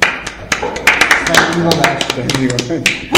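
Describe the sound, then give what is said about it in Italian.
Scattered hand claps as people applaud a guest, sparse sharp slaps breaking through ongoing talk. “Ma e facciamo un applauso a questa ragazza.”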